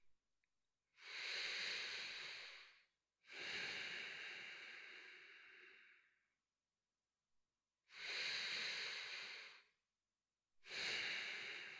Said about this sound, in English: Deep breaths, okay? Breathe with me, okay?